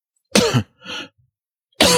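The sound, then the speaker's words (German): A person coughs: a loud, rough double-burst cough, a softer wheezy intake of breath, then another loud cough beginning right at the end. “was tust du? Ich huste.”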